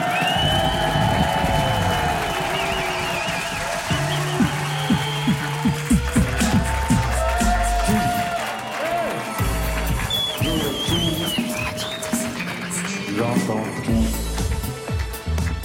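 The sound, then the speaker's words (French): Cheering from a large live audience at an evening radio show in front of the public at the Grand Contrôle in Paris, with loud, sustained crowd noise and voices mixed in throughout. “Deuxième heure, toujours en public, très nombreux ce soir à Grande Contrôle. Ouais, c'est ça, il se manifeste.”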